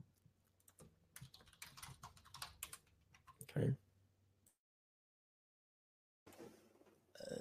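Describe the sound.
Keystrokes of a note being typed on a computer keyboard: irregular bursts of clicking clatter, then a stretch of silence before the tapping starts up again.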